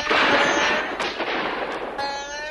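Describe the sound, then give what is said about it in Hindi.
Heavy gunfire as soldiers pour volleys of bullets at villagers in a battle: dense, continuous crackling bursts, with a few sharper shots standing out from the steady barrage. “सिपाहियों ने गोलियों की भयानक बरसात कर दी।”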